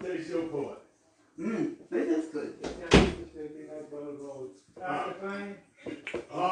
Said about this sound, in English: Now come lock the door.